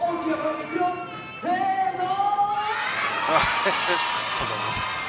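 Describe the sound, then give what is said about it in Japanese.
Children in a live character-show audience shouting and cheering together after being urged to cheer on a hero, a loud, shrill mix of overlapping high voices that swells after the first seconds and stays intense to the end. “ほら観客がヒートアップしている様子がお聞きいただけると思いますが、”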